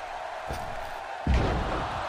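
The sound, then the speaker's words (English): A wrestler is slammed onto the ring mat with a fall-away slam, landing as one loud, deep, booming thud over steady background noise, after a lighter knock earlier. “with a fall away slam”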